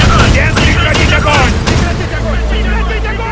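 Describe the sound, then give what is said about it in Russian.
Machine-gun fire at a destroyer in a naval battle scene from a radio drama, heard as a loud, dense, continuous rattle of overlapping bursts that never lets up. “Вдали полыхает торпедированное судно. К эсминцу протягиваются трассы очередей. Свои обстреливают!”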